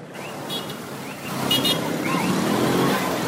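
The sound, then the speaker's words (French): Dense road traffic rumbles along the only road leading to a village at a river crossing, a continuous wash of engine and tyre noise that grows slightly louder partway through, with a few brief high tones above it. “La circulation est dense sur la seule voie qui mène à Zungamé”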